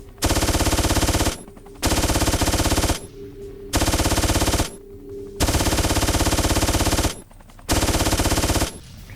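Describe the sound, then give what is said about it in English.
Rapid machine gun fire in a video game comes in five long, loud bursts of fast, even shots, each cut by short silent pauses. “So this is why I often take the rapid machine gun.”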